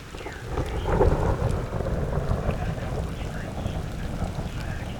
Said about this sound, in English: Thunder!